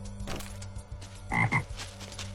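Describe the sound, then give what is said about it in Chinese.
Toad croaking among dense forest trees: a few short, rasping croaks cluster near the middle, one burst stronger than the rest, over a faint steady low hum, with no voices. “李云说这话的时候，用一种近乎是怜惜与不舍的表情看着蹦蹦跳跳的蛤蟆。”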